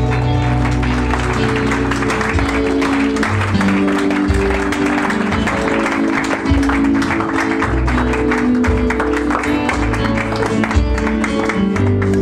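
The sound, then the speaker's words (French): A church audience cheers and applauds during a worship service, a steady loud wash of clapping and crowd noise that runs throughout with sustained tones beneath. “Est-ce que tu peux acclamer le Saint-Esprit?”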